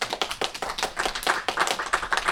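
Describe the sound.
Clapping hands as applause, with rapid, sharp claps from what sounds like a small group, steady and fairly even in loudness throughout.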